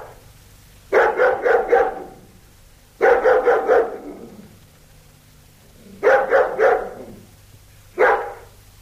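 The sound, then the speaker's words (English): A recording of a dog barking: loud bursts of rapid barks in four clusters separated by pauses, the last cluster shorter, over faint low background hum. “It's a recording of a dog barking. A recording of a dog barking.”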